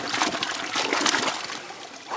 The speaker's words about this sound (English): What these researchers can study today is the water in the stream flowing out from under this glacier.